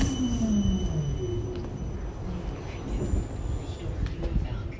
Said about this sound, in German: die Bahn fährt direkt weiter.